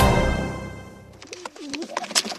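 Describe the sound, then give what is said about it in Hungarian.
Soft, low cooing of a carrier pigeon perched on a tree branch: a few warbling coos after a brief hiss, with scattered light clicks and no talking. “Ide röppent a faágra egy galamb. Gyűrű van a lábán. És a gyűrű alatt valami papíros. Hát persze, az egyik postagalambom.”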